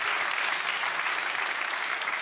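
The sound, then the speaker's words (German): Audience applause: a dense, continuous patter of many hands clapping, steady and even throughout, with no clear voices over it. “Das ist dein Applaus. Ich liebe das.”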